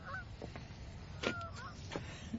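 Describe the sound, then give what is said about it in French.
Geese honk while crowded in a wire-mesh pen at the edge of fir trees. A few faint, nasal honks are scattered over a low, rumbling background. “Des oies crient, serrées dans un enclos de grillage, à la lisière des sapins qui découpent le ciel bleu en dents de scie.”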